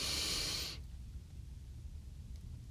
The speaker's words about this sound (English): Let's take 3 deep breaths in through our nose and out through our mouth. And let's do them together. Breathe in.